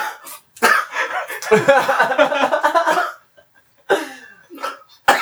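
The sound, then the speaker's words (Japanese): A person coughing and spitting out rice: a sharp, harsh burst, then a long, sputtering run of rapid coughs, followed by a few shorter coughs after a brief pause. “なんだ、米を吐くな。”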